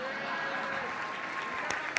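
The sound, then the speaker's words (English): An audience at a talk claps steadily in dense, even applause with no breaks, honoring attendees who had email in 1999. “Okay, first, let's clap it up for these dinosaurs.”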